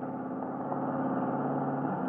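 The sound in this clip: A car engine drones steadily as the car pulls up at a gas station. The motor holds an even, continuous rumble with no voices.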